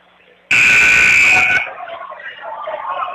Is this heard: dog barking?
no